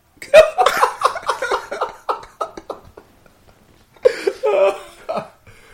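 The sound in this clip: Throat clearing and cough-like rasps come in a string of short, rough bursts. A pause follows, then a second, louder cluster of gravelly throat sounds.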